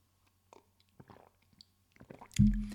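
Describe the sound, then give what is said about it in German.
Someone taking a quick sip of a drink during a talk on strength training: faint, scattered small slurping and swallowing noises, followed by a louder low thump at the end. “Ich muss jetzt kurz einen Schluck trinken.”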